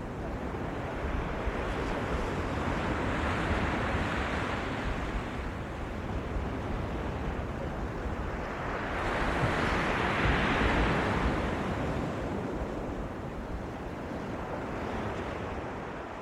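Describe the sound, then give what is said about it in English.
Waves wash over a pebble shingle beach at Brighton and drag the stones back so they grind against each other. A steady rushing hiss of surf swells into two louder surges, with wind noise throughout. “If you're at Brighton, where there's lots of pebbles, you get the sound of the pebbles being ground over each other. It's another sound, isn't it? The waves wash them in and then drag them out again.”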